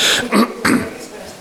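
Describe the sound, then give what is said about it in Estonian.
Coughing: three short, loud, harsh coughs in quick succession, followed by quiet. “Linti pealt tahate kuulata minu köha.”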